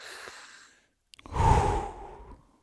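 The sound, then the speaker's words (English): A slow, deep breath drawn in during a guided relaxation breathing exercise: a soft airy rush first, then a longer, fuller breath that swells and slowly fades, with no talking. “take three slow, deep breaths, because this activates the parasympathetic nervous system. So breathe in with me.”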